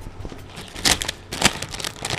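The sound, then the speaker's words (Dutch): Crinkly plastic rustle of a bag of nacho cheese Bugles corn snacks being torn open, with a couple of sharper crackling bursts over a low, steady crinkle. “dus die zak maak ik open”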